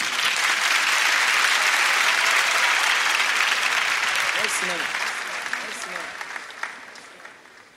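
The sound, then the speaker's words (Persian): An audience claps in dense, sustained applause that gradually thins and fades, with a voice briefly heard toward the end. “یه کف بزنید بر خودتون، میترسم خسته بشید”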